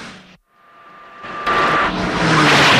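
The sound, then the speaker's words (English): Roaring vehicle noise from cars in a chase along a desert road. After a brief drop near the start, a broad, loud roar builds and stays heavy to the end. “Some guards in a green car give chase along the desert road.”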